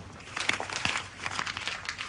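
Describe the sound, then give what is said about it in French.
A ball of paper is handled, giving a faint, continuous crinkling and crackling with small irregular bursts of rustle throughout. “Je prends cette boule de papier dans une main et cette boîte à sable dans l'autre.”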